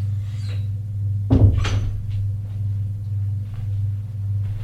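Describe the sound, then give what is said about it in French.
A door is pulled shut as someone leaves a room, making a single short, dull thud over a steady low hum. “Alors, il sort de la pièce et ferme la porte.”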